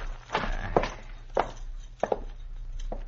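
Footsteps walking into a cabin, a radio drama sound effect: a few heavy, uneven steps on a hard floor over a low steady hum, two of them falling close together.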